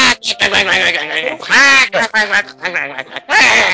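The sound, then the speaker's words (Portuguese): Loud, nasal duck quacking in several voiced bursts with a wavering pitch, the comic duck sound that cut in on contestants in a 1990s Brazilian TV talent show. “entrava um pato na televisão, fazendo...”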